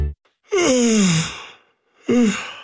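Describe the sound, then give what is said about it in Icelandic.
A person yawning twice: a long, voiced yawn that slides downward in pitch, followed after a pause by a shorter one that also falls, both loud and alone. “Ef þú geispaðir líka, þá gæti verið sniðugt að opna gluggan aðeins.”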